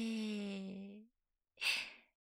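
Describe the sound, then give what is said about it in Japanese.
Deep nasal breathing: a long, slightly voiced breath fades out, and after a pause a shorter, airy, hissing breath follows. “そのまま鼻で思い切り深呼吸。吸って吐いて”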